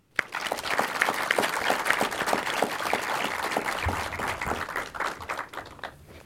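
Audience applause welcoming a guest on stage: a dense, even roll of many hands clapping that starts abruptly, holds steady and eases off slightly toward the end.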